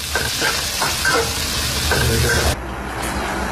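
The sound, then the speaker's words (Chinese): Crab roe sizzles as it is stir-fried quickly with salt in a hot pan, with continuous loud frying hiss and repeated scraping strokes of the stirring, then a sudden drop to a quieter sizzle near the end. “蟹黄鲜而不腥，为了保留鲜味，不用其他佐料，只需加盐，快速翻炒2分钟即可盛出备用。”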